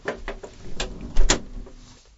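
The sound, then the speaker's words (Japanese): A door being closed: a few light knocks and rattles, then a louder thud near the end, followed by a brief quiet tail. “扉を閉めてください。 よしよし、閉めるよ。”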